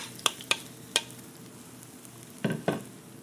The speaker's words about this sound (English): you're just going to take a little bit of it and put it right onto that pan. Yeah. Oh, you need sound. Wow. The sound, we need this ch sound.